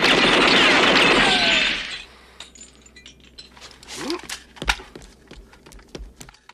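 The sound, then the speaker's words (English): Gunfire tearing a building to pieces: a loud, sustained crashing burst of breaking debris for about two seconds, then scattered clinks and falling fragments that fade to quieter rattles. “His bullets tear the building to pieces.”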